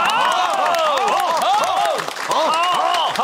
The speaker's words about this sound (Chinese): 大家鼓掌。